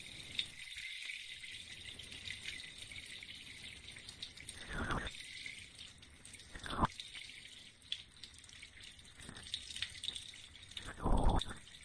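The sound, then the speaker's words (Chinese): Liquid drains out of an ear as the head is tilted: a few soft wet drips and crackles over quiet hiss, with a louder wet burst near the end. “来，侧过头，把耳朵里面的液体倒出来吧。”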